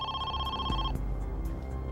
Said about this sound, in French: Peu de temps avant 13 heures, le téléphone sonna de nouveau.